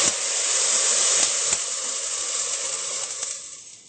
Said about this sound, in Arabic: بحب اني اضيف له مي، وممكن اضيف له مي مغلية، يعني تكون المي اوريدي مغلية. بنغمر البصل